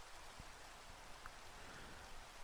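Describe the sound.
Steady rain, a soft, even hiss with faint scattered drop taps, continuous and alone without voices.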